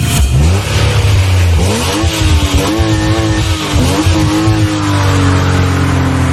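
Motor car accelerating hard: the engine note climbs in several stages, dropping back briefly between gear changes before rising again, loud and close throughout.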